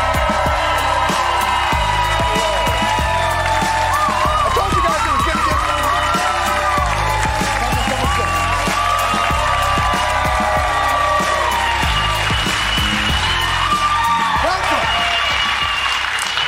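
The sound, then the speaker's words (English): Loud, sustained applause and cheering from a studio audience giving two guest writers a standing ovation on a talk show, with whoops and shouts in a dense, unbroken roar. “Very rarely do you get a standing ovation for the guests”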